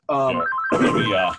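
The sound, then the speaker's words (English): Nextel mobile phone ringing: a loud electronic ring lasting just over a second, a steady tonal note giving way to a buzzier, warbling burst that cuts off abruptly. “Is that your Nextel?”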